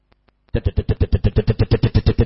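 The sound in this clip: A voice imitates a motorcycle engine, like a motorbike taxi, after a few faint clicks, producing a loud, rapid, even train of sputtering, buzzing pulses.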